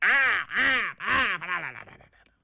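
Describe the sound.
A human voice imitates a crow cawing: three loud, harsh, drawn-out caws, then a few shorter, weaker calls that trail off into quiet.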